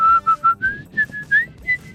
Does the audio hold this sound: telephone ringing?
no